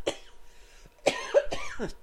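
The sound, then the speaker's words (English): A person coughs a few times in short, harsh bursts: one brief cough, a pause, then a quicker cluster of rough, throaty coughs at moderate loudness with no talk. “Excuse me. Got a little cough there.”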